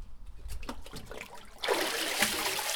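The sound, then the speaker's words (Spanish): Water drains through the mesh of a paper-making mould lifted from a vat of fibre pulp, first with soft splashes and drips, then a steady rushing trickle that swells and continues. “Lo vamos a meter vertical. Le vamos a dar la vuelta abajo y lo vamos a sacar deprisa. Y así el agua nos va a escurrir a través de la malla y nos vamos a quedar con las fibras.”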